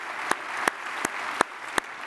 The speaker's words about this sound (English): would you just, by applause, would you just welcome each other as we are one church in a variety of locations.